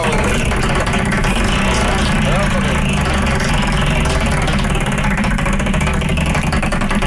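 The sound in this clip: A spinning prize wheel with 36 slots gives a continuous, loud whirring rattle of rapid ticks that holds steady throughout.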